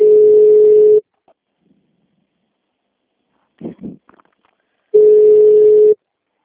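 A telephone tone sounds while a call is being placed: two steady, loud, low-pitched beeps of about one second each, separated by a pause of roughly four seconds.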